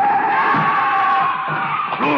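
A car swerves and skids on a street while trying to hit a running man, its tyres letting out a loud, continuous screech with a wavering pitch throughout.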